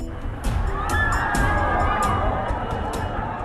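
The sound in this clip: A crowd mills about at a pop idol's concert at Expo Park, a dense, steady hubbub of many voices and scattered shouts that keeps up throughout without a break.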